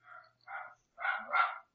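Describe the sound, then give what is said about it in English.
A dog barks four times in short, mid-pitched bursts. The last two run close together, and no one talks. “Oh, see, there's the dog.”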